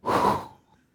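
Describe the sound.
A person breathes out once in a short, breathy exhale that swells and fades within about half a second, with no talk.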